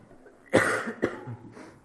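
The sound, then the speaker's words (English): Coughing from a tickle in the throat: two sharp, throaty coughs about half a second apart, followed by a quieter, breathy catch. “Sorry, got a tickle in my throat.”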